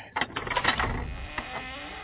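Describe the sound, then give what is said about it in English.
A treasure chest creaks and clatters open with a mechanical, ratcheting rattle of many quick clicks and knocks. The sound is busiest early, then thins into a softer, steady rumble. “Let me open up my treasure chest here. See if we can plunder for any booty.”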